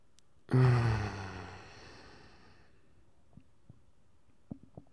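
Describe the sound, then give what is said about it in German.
A single deep breath taken during a guided relaxation exercise, loud and breathy at the start, then tapering off over about two seconds into near silence. “Lass uns erstmal einen tiefen Atemzug nehmen.”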